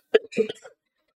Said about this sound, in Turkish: Boğazlaştık pardon gençler.